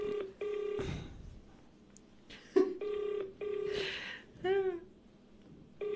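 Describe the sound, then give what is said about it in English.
Telephone tones sound as someone dials a phone number, several steady, buzzy electronic tone bursts separated by short gaps and brief noisy interruptions, all fairly faint. “Are you sure you're not dialing Debonese's number?”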